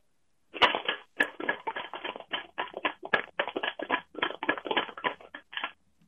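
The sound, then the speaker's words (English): Homemade shaker of a can decorated with marker and tape, with a piece of chalk inside: many quick, gritty rattling shakes in an uneven rhythm, fairly soft and heard alone, stopping abruptly at the end. “My instrument is made of a can, some marker, and tape, and a piece of chalk is inside it.”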